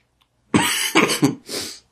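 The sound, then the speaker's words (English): A few harsh, breathy coughs from a person whose throat feels constricted and scratchy from allergies after mowing a lawn and running, short bursts in quick succession after a moment of quiet. “excuse me, I'm coughing like that and everything.”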